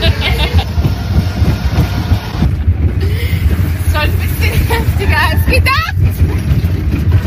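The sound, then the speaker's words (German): A roller coaster ride at an amusement park, heard from the rear car: a constant loud rumble of the track mixed with heavy wind buffeting, with voices briefly audible over the roar. “Und selbstverständlich gibt's da auch Achterbahnen. Und damit wir wissen, was da los ist, haben wir uns einfach mal reingesetzt und den Bügel runtergeklappt und sind dann eine Runde damit gefahren.”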